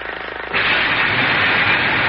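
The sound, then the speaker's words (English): A small motor cranked into life and warming up, opening with a quick sputtering chug that abruptly gives way to a loud, steady, noisy whirring roar that holds to the end. “First, I have to turn on this motor here and get her warmed up a little bit there. There we go. Turn this little crank here.”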